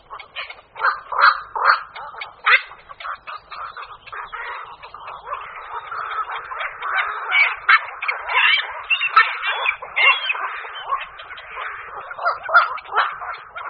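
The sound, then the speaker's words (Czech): A black-crowned night heron gives loud, harsh croaking calls, a heron species mostly active in the evening. Many rough calls come in irregular bursts, some rapid and clipped, others drawn out, with no voices. “Tyto hlasité kvákavé zvuky dali název kvakoši nočnímu, druhu, který je aktivní hlavně večera.”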